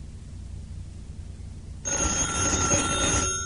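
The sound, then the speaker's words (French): A telephone rings in a steady, continuous bright ring. It starts abruptly about halfway through, after a quiet stretch, and keeps going alone until the end. “Qu'est-ce que c'est? C'est le téléphone.”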